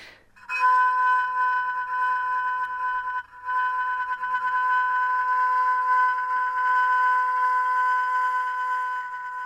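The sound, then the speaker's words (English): A violin bow drawn across a metal biscuit tin makes the metal ring in a sustained, piercing tone with bright layered overtones. The tone holds steady, breaking off briefly once before resuming. “it using the violin bow causes the metal itself to vibrate, and it enables us to hear the timbre, something of the materiality of the biscuit tin itself.”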